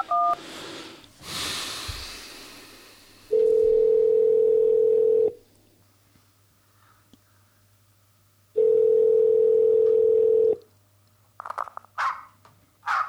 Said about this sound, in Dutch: Maar ik zal hem even oproepen en we zullen horen of dat hem deze keer is oppakt.